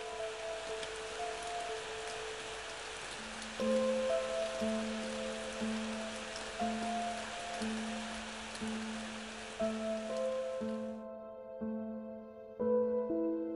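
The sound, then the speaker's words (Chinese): Light drizzling rain makes a soft, steady hiss beneath slow, gentle sustained musical notes. The rain stops near the end while the notes continue alone. “还有淅沥沥的小雨声。”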